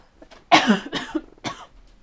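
Dry coughing from a parched throat: a short run of harsh, breathy coughs, the first the loudest, with quieter ones following in uneven rhythm and no talk.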